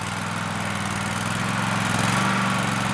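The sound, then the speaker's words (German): A petrol-powered Brielmeier mowing machine cutting grasses and rushes on a moor, its engine giving a steady, even, humming drone that holds without pause, no voices. “Stehend steuert sie den Brielmeier durch die Gräser und Binsen, die hier wachsen.”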